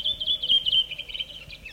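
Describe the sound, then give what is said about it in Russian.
Morning bird chorus in a birch grove in early May, with a distant cuckoo. High, continuous chirping and twittering song runs throughout at a moderate level, with a faint lower tone beneath. “Вы слышите сейчас утренний хор птиц березовой рощи, записанный в начале мая под Ленинградом. Далекое кукование кукушки.”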